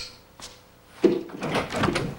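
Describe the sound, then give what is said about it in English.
A hotel room door opens with a faint click, then a louder clunk of the latch followed by a brief scraping swing. “He picks up a gun and opens the door.”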